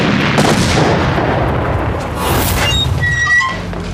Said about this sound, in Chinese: 什么声音？ 报告长官，外面遭到八路袭击。